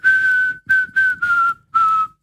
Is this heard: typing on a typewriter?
no